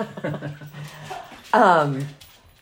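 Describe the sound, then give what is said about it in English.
Dogs yip and whimper under a person talking, then one dog gives a longer, loud whine that fades out. “Sorry about the banging. Lots of dogs here. Few dogs.”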